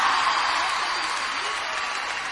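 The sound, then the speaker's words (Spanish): Crowd applause at a live cumbia concert: a dense wash of clapping that starts strong and softens gradually over a couple of seconds. “Aplauso enorme.”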